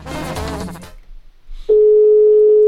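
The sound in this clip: A steady single-pitched telephone tone as a radio contest caller dials. It starts abruptly and holds loud and unbroken, following a brief stretch of talk.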